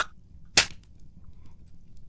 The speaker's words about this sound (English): Been calling it a hand cannon. Found it during my travels. Had to figure out the exact ratios for the gunpowder to the size of the slug myself the hard way.